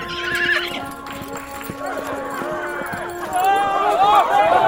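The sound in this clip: A horse, Don Quixote's steed Rocinante, is heard: hooves clip-clop and a neighing whinny, with warbling, rising harmonic tones toward the end.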